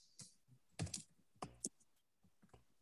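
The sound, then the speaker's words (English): Typing on a computer keyboard: a few quiet, irregular bursts of sharp key clicks, some single and some in quick clusters, with short pauses between them. “Do we even have to type this out? Oh man. Come on. Do I really gotta type it?”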